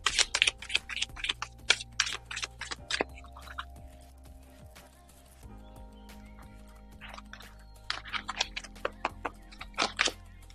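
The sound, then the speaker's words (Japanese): Oracle cards are shuffled and drawn in bursts of crisp snapping and clicking, busy at the start and again near the end with a quieter stretch between, over soft sustained background music. “はい、それでは今日のね、オラクルカードを引いていきましょう。お待ちください。”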